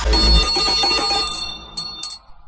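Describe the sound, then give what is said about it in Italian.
A small bell rings with a bright, sustained metallic tone that fades, then two short, higher rings follow. “Sali in sella, è suonata la campanella.”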